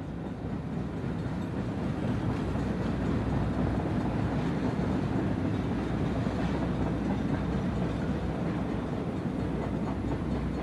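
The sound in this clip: Steady rumble of a train carriage rolling on rails, a dense low roar that holds an even loudness from start to finish with no voices.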